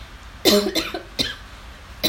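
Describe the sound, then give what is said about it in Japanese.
A person coughs and chokes: a few sharp, harsh coughs close together, the first the strongest, loud and alone with no talk. “最近ね、むせるのなんかね、ちょっと慌ててるんだよね。”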